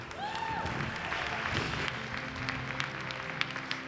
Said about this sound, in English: Can we give a hand for all those who've given their hearts to the Lord today?